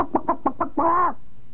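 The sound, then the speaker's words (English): A person's voice imitates a chicken clucking: five quick, evenly spaced clucks lead into one longer drawn-out squawk, loud and alone. “somehow I love to imitate chickens.”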